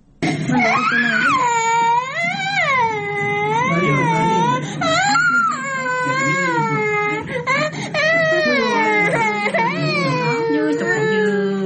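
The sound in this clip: Hungry children crying in a poor household in Uruzgan: loud, continuous wailing sobs with pitch that repeatedly rises and falls, overlapping voices sustained for the whole stretch.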